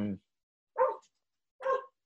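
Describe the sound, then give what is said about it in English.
A dog barks at a parcel delivery in two short, separate bursts, both fairly faint and spaced about a second apart. “there's a parcel here. That means the dog's going to go mental.”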